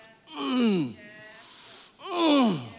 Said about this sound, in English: I am going to pray, even, here it is, groan.